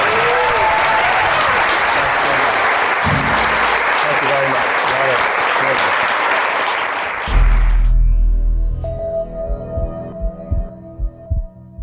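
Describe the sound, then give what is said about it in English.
Audience applause for a guest at the close of a live talk: dense, loud clapping sustained for about eight seconds, then stopping abruptly and leaving only faint low thumps. “Thank you all for coming. The podcast will be published this weekend. Give it up for Dave Asprey.”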